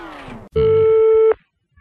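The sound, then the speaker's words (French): A telephone rings once for a live radio call to a listener: a single steady electronic tone, loud and held for under a second, following a short sound and ending abruptly. “C'est la radio d'Avignon qui vous appelle.”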